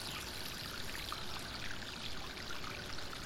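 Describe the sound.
Flowing water from a fountain spilling into a canal makes a steady, even rushing and trickling wash that is quiet and continuous, with no voices.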